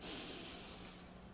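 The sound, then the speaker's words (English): A slow, deep inhaled breath taken during a guided relaxation exercise, a soft, airy hiss that is strongest at the start and gradually tapers over about a second. “And as we do this, let's take another deep breath in.”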